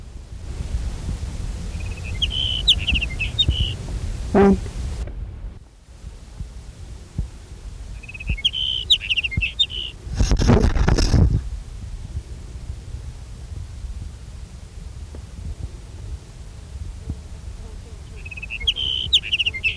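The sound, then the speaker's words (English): Sage sparrow song recorded in California: three brief high, buzzy phrases spaced several seconds apart over a low rumble, with a couple of loud thumping bursts in between. “Here's sage sparrow number one.”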